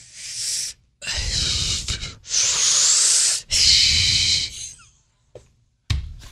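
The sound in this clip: Heavy breathing sounds right up against the microphone, with several loud, rough, hissing breaths in an uneven rhythm and short silent gaps between them, then a softer, briefer breath near the end.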